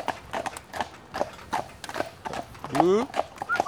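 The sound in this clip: Horse hooves clip-clop at a trot on a working ride, with many quick, evenly spaced sharp beats that form a steady rhythm while people talk over them.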